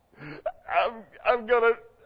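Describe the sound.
A voice imitates whining with a few drawn-out, wavering whimpers and moans, rising and falling in pitch and broken by short gaps.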